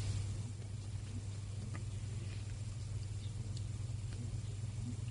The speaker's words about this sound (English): I can hear my hard drive spinning.